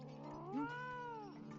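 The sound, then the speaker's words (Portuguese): A lazy pet cat gives one drawn-out, faint meow, a tonal, harmonic call that bends up and then settles back down. “Ah, seu gato nem é selvagem. Ele não passa de um gatinho preguiçoso.”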